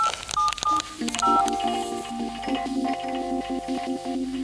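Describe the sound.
A telephone number being dialed on a touch-tone phone: a quick run of bright beeps at the start, followed by steadier sustained tones.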